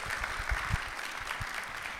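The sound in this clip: A church audience applauds to welcome a guest speaker to the front during a morning service, giving steady, dense clapping that holds at an even level for the whole moment.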